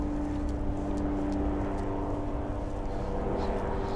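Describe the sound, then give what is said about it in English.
An airplane flying overhead drones outdoors as a steady, fairly loud low rumble with a broad hiss. It holds unchanged throughout, with no talk. “Excuse the plane noise. I'm actually outside.”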